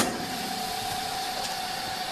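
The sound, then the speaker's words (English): A chamber vacuum sealer runs with its lid closed, giving a steady whirring hum with a constant thin whine over it. The noise holds even throughout, with no talk. “Over to the chamber vac. To the chamber. I think everybody keeps their chamber vacuum sealer in their entry closet. I'll close the lid. It's going to start doing its thing. It takes about a minute.”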